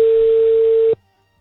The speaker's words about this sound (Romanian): Da, telefonul sună.